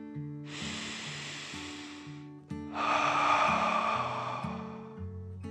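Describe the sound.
A deep breath is drawn in and then blown out, two long airy hisses with the second fuller and louder, over soft plucked music.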